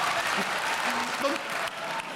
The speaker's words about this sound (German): Da klatscht der Westfale, das war mir klar.